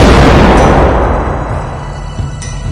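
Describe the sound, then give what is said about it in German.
A grenade explodes in a video game with a single loud, deep boom that rolls off and fades over about two seconds. “Das ist eine Granate”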